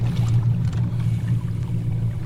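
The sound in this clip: Engine drone of a small boat moving at full speed on water, not a speedboat: a steady, low, continuous hum that holds an even level from start to finish.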